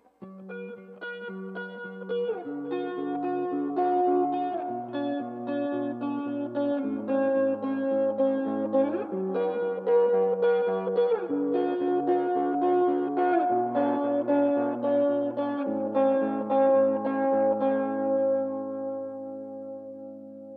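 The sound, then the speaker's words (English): Electric guitar played through a wet-dry-wet rig, with a dry signal flanked by effected signals, producing sustained notes and chords with spacious echo and modulation. The passage stays steady in level and tapers off toward the close. “And here's what it sounds like when I use a wet-dry wet setup.”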